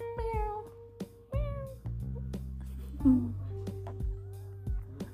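A small kitten meows a few times, each a thin, high-pitched call set apart by short pauses.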